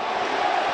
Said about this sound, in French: Et là, le bruit que vous entendez, c'est le parquage ivoirien qui est plein comme un œuf.